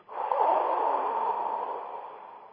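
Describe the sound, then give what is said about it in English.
A long, forceful exhale, a deep breath released as a dragon breath during a breathing exercise: a loud, rushing airy whoosh that starts strong and tapers slowly over about two seconds. “take a deep breath and release it as a dragon breath”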